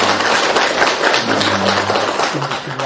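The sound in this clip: Applause from an audience welcoming a Buddhist monk, a senior disciple of a Zen master. The clapping is loud, dense and steady for the whole stretch, with a voice faintly audible beneath it.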